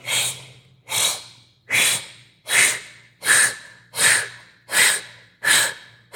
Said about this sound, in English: So you're going to exhale blow off into the distance. I do this through your mouth.